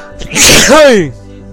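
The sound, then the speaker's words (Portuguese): A single loud sneeze from someone with a cold: a breathy noisy burst leads into a short voiced cry that rises and falls in pitch, over a low steady background hum. “Ó, meu espirro é só pras gatinhas, pai.”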